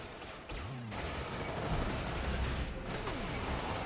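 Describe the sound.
Gunfire in the online zombie shooter video game Umbrella Corps: a dense, steady wash of shots and noisy mechanical clatter that runs through the whole stretch without clear separate bursts.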